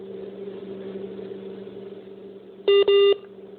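Phone line disconnection beeps as a call is cut off: a steady low hum runs throughout, then near the end come two loud, short electronic tones in quick succession.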